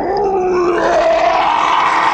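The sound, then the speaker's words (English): A monstrous fantasy creature's mournful howl in the moment of its defeat: one loud, drawn-out, wavering cry with a strong tonal core and rough edges, sustained for the whole clip with no other sounds. “The Malagorgon let out a mournful howl,”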